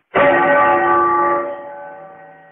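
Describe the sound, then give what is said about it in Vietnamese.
A Buddhist temple bell at the Shaolin monastery, carried on the wind, rings once. It strikes sharply and then sustains a rich, humming blend of steady tones that slowly fades away. “Gió đưa tiếng chuông chùa từ phía dưới vọng lên, khiến người nghe như trút hết phiền tục.”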